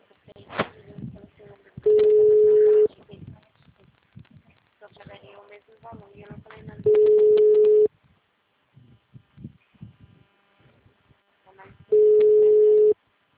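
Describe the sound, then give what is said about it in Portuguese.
Ringing tone of an outgoing phone call being placed: three steady, mid-pitched beeps, each about a second long and roughly five seconds apart, with a voice talking quietly between them. “Só um minutinho. Calma aí. Tô fazendo uma ligação.”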